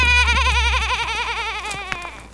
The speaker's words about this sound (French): dommage, je l'aimais bien moi la petite brebis noire.